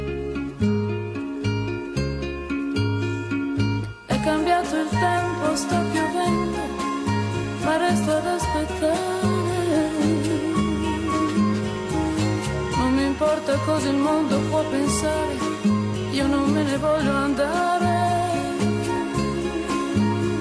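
An Italian song plays from an album recording, with a steady rhythmic accompaniment over a strong low pulse. The arrangement fills out after the first few seconds and then continues at an even loudness.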